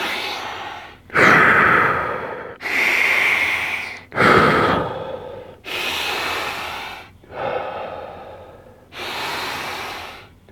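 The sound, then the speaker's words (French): Forceful, rapid breathing during a breathing exercise: seven loud, rushing breaths in a steady rhythm, each lasting over a second, heard alone. “Tu respires 20 fois super fort, donc comme ça.”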